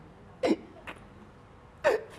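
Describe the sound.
A child hiccups: two short, distinct voiced hiccups about a second and a half apart, fairly faint, with softer breath catches between them.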